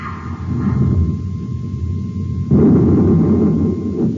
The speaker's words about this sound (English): The missile blew up before it hit Jupiter City.